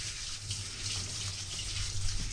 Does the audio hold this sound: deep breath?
no